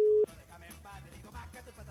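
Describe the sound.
A telephone tone on an outgoing call: one short, steady, mid-pitched beep at the very start, then quieter low sounds.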